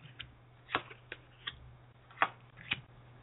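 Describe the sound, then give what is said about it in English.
Tarot cards being shuffled give a few soft, crisp snaps and riffles at irregular intervals over a faint, steady hum, with no voices. “there's that little awkward pause when tarot readers start shuffling away.”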